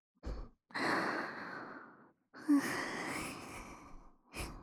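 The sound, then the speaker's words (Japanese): Heavy, out-of-breath breathing after a kiss: a few ragged breaths, with two long, sighing exhalations set between short, sharp intakes. The breathing is fairly quiet and heard alone. “さっきのキスでちょっと息が切れちゃった。ちょっとだけ待ちなさいよ。”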